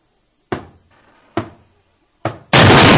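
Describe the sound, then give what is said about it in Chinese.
Three single knocks on a room door land at even intervals, each sharp and then fading, before a sudden loud burst of noise takes over. “从房门传来的声音，有人在敲门。”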